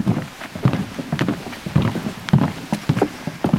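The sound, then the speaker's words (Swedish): Footsteps thud on a half-metre-wide wooden boardwalk laid over very wet marshland in a lightly autumn-coloured forest near the Polish village of Jawowka on the Belarus border, many hollow steps in an uneven walking rhythm at moderate loudness. “Vi går på en halv meter bred träspång som är utlagd över den mycket blöta sankmarken mitt i den lätt höstfärgade skogen vid den polska gränsbyn Jawowka.”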